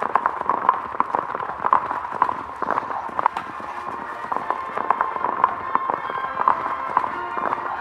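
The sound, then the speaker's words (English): Hoofbeats of two horses running through hilly country, a quick, steady clip-clop of many sharp hoof strikes that continues evenly from start to end. “Taking a roundabout route through the hills, the masked man and Tonto avoided riding through Tobacco Ridge in order to reach the western side of town.”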